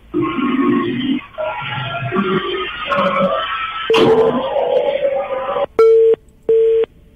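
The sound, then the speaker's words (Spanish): Telephone busy tone after a call is cut off: a steady mid-pitched beep repeating in short, evenly spaced on-off pulses, following a stretch of voices and background sound. “Bueno, ya se cortó la llamada telefónica.”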